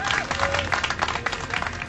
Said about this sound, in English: Let's have a serious round of applause here.